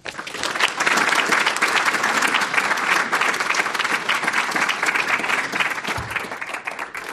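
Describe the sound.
An audience at an evening lecture in San Francisco applauds to welcome a speaker. The clapping is loud and dense, holding steady throughout before easing slightly at the end.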